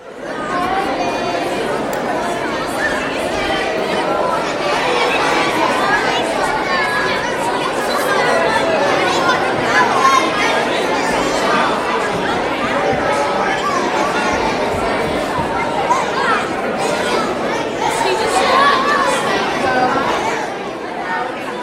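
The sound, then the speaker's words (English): Church audience standing to greet one another and share the peace: a continuous murmur of many overlapping voices chatting at once, steady and fairly loud for about twenty seconds. “Please stand this morning and let's greet each other and share the peace with one another. And members, if you see people that you don't know or recognize, go say hi and tell them welcome today.”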